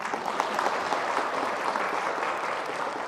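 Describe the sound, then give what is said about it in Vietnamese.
An audience at a Buddhist talk in Canada applauds in a steady, dense wash of clapping that holds at an even loudness throughout. “cho người đó tràng pháo tay”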